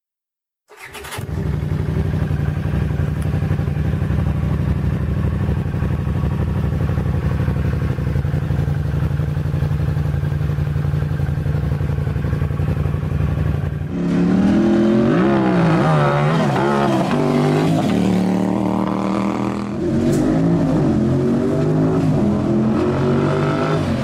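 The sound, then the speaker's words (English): A Honda CX 500 Turbo V-twin motorcycle with an aftermarket exhaust starts and idles with a steady, even throb, then revs in several rising and falling bursts, louder and rougher than the idle. “One more on the V-twin tip and then we'll move on. This is a CX 500, a Honda CX 500 turbo.”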